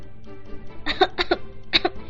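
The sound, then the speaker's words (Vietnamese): A man coughs dryly in a few short, clustered bursts, moderately loud above a low, steady background. “Hiền Viên Lãng vừa xấu hổ lại vừa bí, không ngừng ho khan.”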